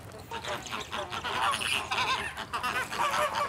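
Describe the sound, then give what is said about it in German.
Flamingos honk and chatter near a clutch of eggs where a few chicks have newly hatched. Overlapping nasal calls form a continuous, busy babble throughout. “haben ja unsere Flamingo-Eier und jetzt sind da auch ein paar Tiere geschlüpft.”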